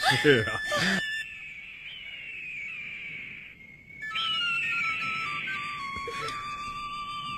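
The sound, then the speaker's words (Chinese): Flute playing a cheerful tune among mountain eagles, in steady high piping notes with long held tones that shift gently in pitch. The notes carry on almost without a break, opening with a busier, fluttering burst. “爷爷吹的是欢乐的曲子，山鹰在和我们玩呢。爷爷如果吹战斗的笛声”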